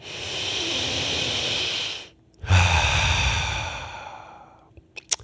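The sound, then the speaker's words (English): Deep breaths through the nose from a person who can breathe freely again after nasal healing: two long, loud, airy rushes of breath separated by a short pause, with no talking. “So let me just be the first one to take a deep breath.”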